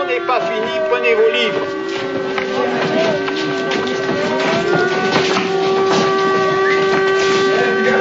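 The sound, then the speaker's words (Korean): An air-raid warning siren sounds in wartime, with steady sustained wailing tones that hold over a dense, noisy background for the whole stretch. “그때 경보 사이렌이 울립니다.”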